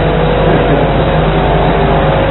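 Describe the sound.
Steady engine and road rumble from the back seat of a car driving along, a continuous even drone with a low hum underneath and no distinct events or voices.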